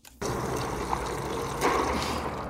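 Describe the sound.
Brine being whisked, a steady, continuous swishing and sloshing of liquid that stays at an even level throughout, with a slightly brighter surge of splashing toward the end.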